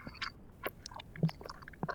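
Chewing food while eating: faint, soft, moist crunching and smacking bites come in an irregular rhythm, many small sounds close together, with no talking.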